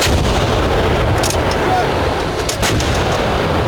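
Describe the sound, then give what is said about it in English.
Artillery batteries open fire in a battle against advancing machines, a loud, continuous heavy rumble of blasts with a few sharper bursts standing out above the roar. “Artillery batteries, fire!”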